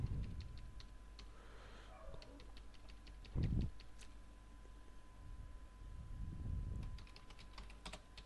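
Fingers type text on a computer keyboard while editing a layout. The key clicks are quiet, quick and irregular, coming in short bursts over a faint steady hum.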